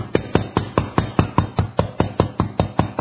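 A wooden fish (mõ) is tapped steadily while reading, giving many rapid, even knocks at about five strikes per second, crisp and alone with no voices.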